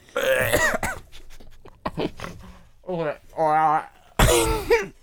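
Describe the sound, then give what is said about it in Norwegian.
A person retches and gags as if about to vomit. Harsh, strained voiced heaves and throaty coughs come in bursts, broken by short pauses. “Jeg tok det ut, jeg, for nå holdt jeg på å kaste opp på hele pulten min her, og det har jeg ikke råd til.”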